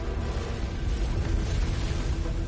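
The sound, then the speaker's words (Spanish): Heavy rumble of a 250-kilogram bomb striking the 15-centimetre steel deck of the battleship USS Pennsylvania during the Pearl Harbor attack: a dense, loud, steady roar of low noise with no distinct separate bursts. “El USS Pennsylvania sufrió un impacto directo de una bomba que pesaba 250 kilos.”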